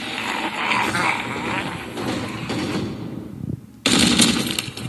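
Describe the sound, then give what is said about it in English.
Rapid, dense gunfire from someone shooting zombies in an advertisement for zombie bullets: a loud continuous barrage that drops out briefly near the end, then resumes. “This guy's shooting zombies, and this is an ad for zombie bullets.”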